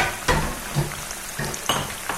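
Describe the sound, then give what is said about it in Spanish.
Food sizzling as it fries in a pan: a steady, bright hiss broken by several louder scraping bursts, as if from stirring. “cocinar, ¿lo adivinaron?”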